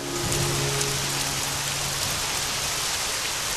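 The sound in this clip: Rain falls steadily, a dense, even hiss that continues unbroken throughout, with a faint low hum under it at the start.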